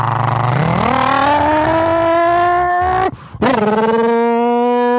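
A loud car engine with its restrictor plate removed revs sharply upward, then holds a strong, steady high drone. It cuts out briefly, roars back and settles slightly lower in pitch.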